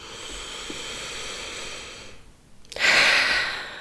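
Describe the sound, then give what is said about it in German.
A slow, deep breath is drawn and released, two long, soft, airy phases with a short pause between them, the second louder and fuller, and no talking. “Und noch drei tiefe Atemzüge hier.”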